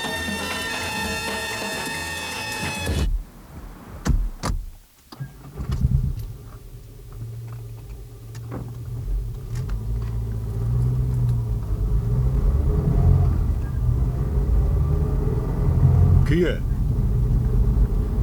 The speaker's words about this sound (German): Aber steigen Sie ein, das Auto wartet.